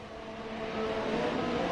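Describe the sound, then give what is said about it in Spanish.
Engine roar of a Mercedes racing car accelerating along a circuit's main straight: a loud, sustained buzzing drone with strong harmonics, steady and continuous throughout, with no voices. “el manejo de Norris es impecable, pero la velocidad de punta del Mercedes la aceleración en la recta es mejor. Ahí están en la recta principal.”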